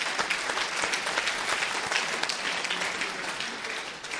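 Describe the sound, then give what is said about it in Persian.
Audience applause at a poetry performance, dense clapping with sharp individual claps standing out, holding steady and easing slightly toward the end. “یه دست مرتب برای خودتون بزنید.”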